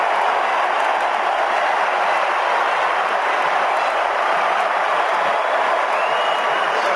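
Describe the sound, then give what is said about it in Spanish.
A stadium crowd in Miami roars and cheers as Neymar comes onto the pitch for Brazil, leading 3-0 in a football match, a dense, steady wash of crowd noise sustained for the whole stretch without distinct breaks. “Así lo recibe el público de Miami, se va Mateus Cunha. Explota el estadio con Neymar en la cancha.”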